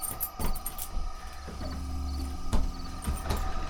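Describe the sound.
A lock being worked with a key and a door opening into a building left unused for about twenty years: sharp mechanical clicks and rattles, with a drawn-out creaking tone in the middle.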